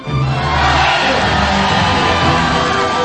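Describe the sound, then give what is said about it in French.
A crowd at a comedy show cheers loudly to welcome a comedian, with whoops, yells and shouts blending into a continuous roar that stays strong from start to finish. “je vous demande de faire une ovation, que dis-je? Un triomphe au plus wizard des comiques, j'ai nommé Latex!”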